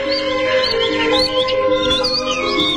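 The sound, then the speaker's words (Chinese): Two little birds chirp in many quick, high, twittering calls that repeat over a steady tonal background at an even, moderate level. “啊，还有两只小鸟在笑我们呢。”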